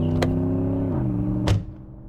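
A car engine hums steadily, its tone dropping lower partway through, then the sound quickly fades as the vehicle drives away.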